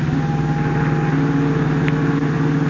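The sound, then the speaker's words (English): A big sedan drives along a fog-swept waterfront, its engine a steady, continuous low drone with a faint tonal hum that holds evenly throughout, with no voices. “Clinging to the rear bumper of the big sedan in which Gloria Garrett rides with an unknown man, Batman and Robin are carried swiftly along the fog-swept waterfront.”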